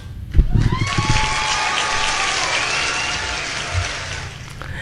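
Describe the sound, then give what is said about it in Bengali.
A quiz-show audience applauds three finalists, and after a brief thump the loud, dense clapping swells into a steady, rain-like roar that carries on to the end. “একদম, এদের তিনজনের জন্য জোরে হাততালি তো হতে হবে।”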